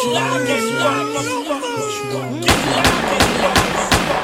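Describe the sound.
A gunshot rings out as a sudden loud bang that cuts into tense, shouting voices, with sharp cracking bursts after it.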